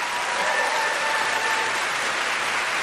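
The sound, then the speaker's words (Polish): An audience applauds a performer being welcomed onto a stage, a dense, steady clapping that holds an even loudness for the whole stretch without pauses. “Wielkie brawa. Wielkie brawa, Urszula Dudziak.”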